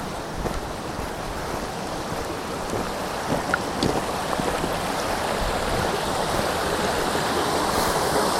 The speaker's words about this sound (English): It's a beautiful place. Yeah, that's definitely a waterfall.